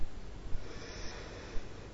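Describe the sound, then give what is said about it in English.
A person draws a deep breath in during a guided meditation: a soft, steady, airy rushing inhale lasting about two seconds, faint and alone. “And breathe in”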